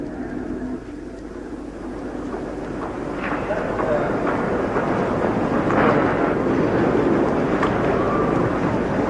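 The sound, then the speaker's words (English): An airplane arrives at an airport, its broad engine rumble swelling after a few seconds and then holding at a steady, loud drone with a windy hiss. “That's the plane?”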